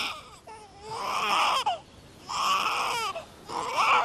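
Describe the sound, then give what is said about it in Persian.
A baby crying in three long wailing bursts separated by short breathing pauses, tonal and strained, fairly loud, with no talk. “بچه داره گریه میکنه.”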